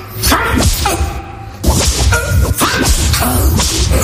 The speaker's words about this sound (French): 20 coups de fouet à ce vagabond! Toi, défais ta chemise. À genoux. Maintenant, frappe